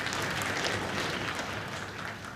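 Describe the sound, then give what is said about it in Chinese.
Sparse, scattered clapping from a small live audience at a traditional crosstalk comedy performance. The applause is faint and thin, with a steady patter that tapers slightly toward the end. “感谢朋友们稀稀拉拉的掌声”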